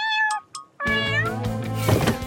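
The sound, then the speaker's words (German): High-pitched kitten meows: a short, clear mew opens, then a longer, busier meowing stretch follows with other sounds mixed in. “Nicht jetzt, Kätzchen.”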